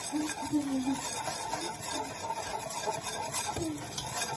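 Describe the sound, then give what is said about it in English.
Stirring of a spicy mixture in a pot while cooking: a continuous scraping, rasping rub that runs steadily at a moderate level throughout. “All right, so we're gonna stir this up for a couple more minutes.”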